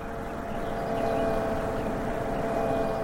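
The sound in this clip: Synthetic warning sounds from quiet electric vehicles on a road blend into a steady, layered droning hum with faint tonal lines, holding an even, moderate level for about three seconds with no talking.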